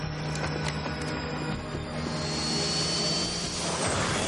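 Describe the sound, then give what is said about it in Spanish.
Roar of an airplane descending at full speed through the air: a continuous rushing engine noise with a low drone, its hiss growing brighter and fuller in the second half. “El avión desciende a toda velocidad por el aire.”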